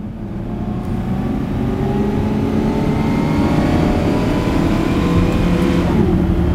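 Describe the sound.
A car drives off in pursuit, its engine droning loud and steady with a whirring tone. The engine holds a constant, even level for the whole stretch, with no voices.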